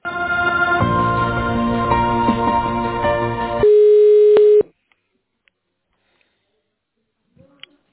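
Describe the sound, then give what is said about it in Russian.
Phone-line sounds as a call is transferred: several seconds of tinny melodic tones, then a single loud, steady tone about a second long, after which the line falls almost silent. “давайте сейчас тогда на Ольгу переведу звонок. Вы с ней пообщаетесь. Хорошо, все, ожидайте.”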